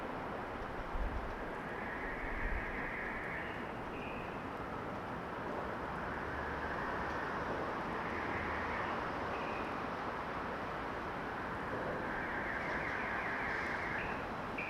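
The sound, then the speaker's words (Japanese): A train arrives at a station platform with a dense, steady rumble and hiss that holds at an even level throughout. “皆様、まもなく2番線に電車が到着いたします。危険ですからご注意ください。”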